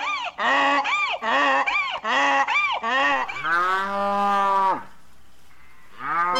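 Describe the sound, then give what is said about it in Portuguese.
Farm animals call out: a quick run of harmonic, rising-and-falling honks like geese, then a long drawn-out moo from cattle, with another call starting just as it ends. “Olha a bicharada aí cantando no estúdio da Verdinha, meu povo!”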